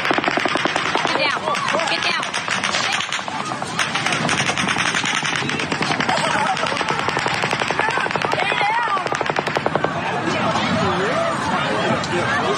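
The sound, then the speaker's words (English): Machine gun fire in sustained, dense bursts of rapid cracking shots that run loud through the whole clip, with voices mixed in among the gunfire. “There is nothing like the sound of machine gun fire.”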